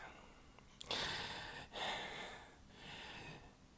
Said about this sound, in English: What's the breathing? Um, Do you have an inhaler that you could use?